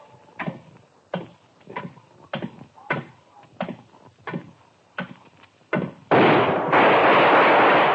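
A gunshot in a radio drama: about a dozen evenly spaced thuds are followed by one loud, sudden blast that sustains as a roaring burst to the end.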